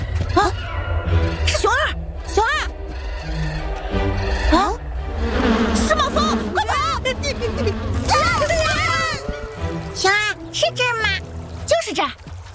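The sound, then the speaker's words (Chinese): Hornets buzz around a disturbed nest in a cartoon scene, a continuous insect drone running underneath lively animated voices for the whole stretch. “别捅，那是马蜂窝。”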